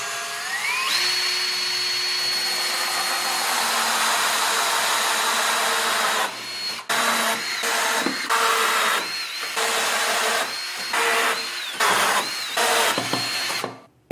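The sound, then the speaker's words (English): A power drill bores holes into the back of a workbench: the whine spins up at first, holds a long steady high-pitched run, then breaks into many shorter bursts as the trigger is pulsed. “I have all my holes drilled in the back”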